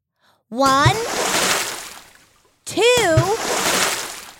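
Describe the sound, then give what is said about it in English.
Splashing from big swimming strokes in water: two loud, broad bursts of churning water, each beginning with a short vocal sound. “Move your arms in the air and swim closer to me so I can hear and see you. Can you give me 3 big strokes?”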